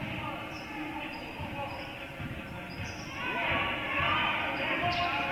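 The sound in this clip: A basketball is dribbled on a court during a game, its bounces thumping under a steady murmur of crowd noise that swells slightly toward the end.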